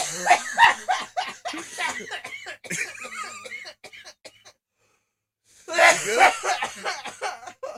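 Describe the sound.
Coughing mixed with laughter after inhaling from a vape: loud, repeated rough coughs and snickers in a burst, a short silence, then another fit of coughing and laughing.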